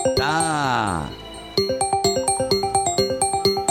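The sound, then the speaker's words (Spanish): Telephone line ringing on a call-in line, heard after a brief swooping electronic tone: a rapid, even run of many short, bright ringing pulses, loud and with no voices over them. “Está sonando la línea telefónica.”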